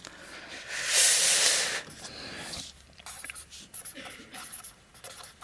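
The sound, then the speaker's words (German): Handwriting in English scratches across a surface in a series of short, irregular, raspy strokes of varying loudness, with soft breathy noise around them. “Kleine Pause für C3-Lingo, weil ich jetzt auf Englisch schreibe.”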